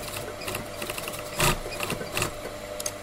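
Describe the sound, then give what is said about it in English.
Antique foot-pedal sewing machines whir and rattle in the Grevi hat workshop in Signa, near Florence, as veteran seamstresses stitch summer hat brims. The mechanical clatter is continuous, with a few louder bursts and no voices. “A handful of veteran seamstresses dutifully work in silence, using foot pedals on antique sewing machines to assist them as they construct the brims of classic summer hats for the family-owned business.”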